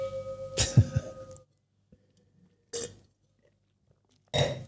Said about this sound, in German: Kleiner Rest ist noch da, den trinke ich jetzt während der Rückblickfolge.